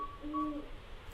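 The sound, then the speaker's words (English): A northern saw-whet owl calls on a spring night in a south central Alaska forest: a single soft, faint whistled toot standing alone over low background noise. “On a spring night, the call of a northern saw-whet owl echoes through the forests of south central Alaska.”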